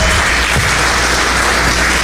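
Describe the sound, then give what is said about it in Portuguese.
A Pentecostal church audience applauds in loud, dense, continuous clapping that stays steady throughout with no break. “essas palmas para Jesus tem que ser as palmas mais bonitas, mais pentecostal, mais barulhenta.”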